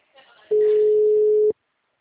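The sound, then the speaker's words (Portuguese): Ringback tone of an outgoing phone call waiting to connect, a single steady mid-pitched tone lasting about a second, starting and stopping cleanly after a faint, brief murmur. “Tentar ligação.”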